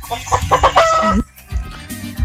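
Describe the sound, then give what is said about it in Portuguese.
A hen that has just laid an egg clucks loudly in a quick run of nasal cackles ending in a drawn-out squawk, then pauses briefly before a few more clucks. “E a galinha botou.”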